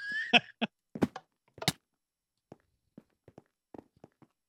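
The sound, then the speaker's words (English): Video-game footsteps running and jumping through the Diversity 2 parkour map: a few sharp, louder impacts at first, then a sparse, uneven run of faint short taps separated by silence. “There's no button. You just got to run and jump, I guess. And hit the button? Yeah. Go for it.”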